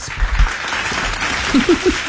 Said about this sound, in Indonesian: Tiba ada tepuk tangan. Cik boleh sih lepas tepuk tangan ya.